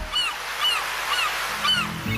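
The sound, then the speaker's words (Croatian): Seagulls calling by the sea: four short, high-pitched cries at a steady pace over continuous soft background noise. “Prije jutra u zoru budimo vas s galebima na moru”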